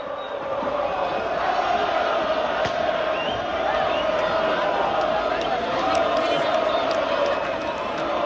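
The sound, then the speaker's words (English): A crowd of 60,000 Lens football fans cheers their team after its first Coupe de France win, beating Nice. The roar is loud, dense and continuous, with no breaks throughout. “The sound of 60,000 Lens fans welcoming their team back after they beat Nice to win the Coupe de France for the first time in their 120-year history.”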